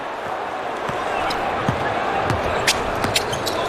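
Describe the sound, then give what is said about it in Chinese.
A basketball is dribbled during a game. A few dull bounces land under a commentator's talk and a murmuring crowd. “对方是绕过掩护，好好运球找节奏，投一个短”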